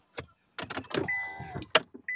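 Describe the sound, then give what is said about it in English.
Sounds inside a car: a few thumps and clicks, then a steady electric whir like a power window motor running for about a second, followed by a sharp click and a short higher whine. “Sorry, y'all. I'm in my car. I'm like Kendra. I'm in my car.”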